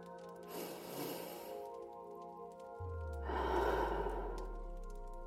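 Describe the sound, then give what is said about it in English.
Slow, deep breathing: two long, airy rushes of breath separated by a pause, heard over a soft, steady musical drone. A low bass tone comes in partway through. “Before I start, though, let's do our normal three breaths, shall we?”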